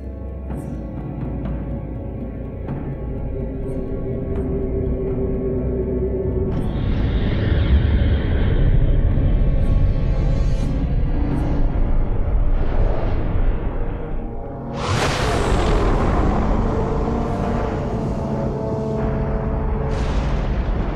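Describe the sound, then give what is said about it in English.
Soundtrack of The Clone Wars season 3 trailer, Secrets Revealed: dense roaring engine sweeps and booming blasts over a heavy sustained rumble, with a sudden loud burst partway through. “me play for you now season 3 trailer, Secrets Revealed. This one aired from September of 2010 to April of 2011 on the Cartoon Network, 22 episodes of Season 3 of The Clone Wars.”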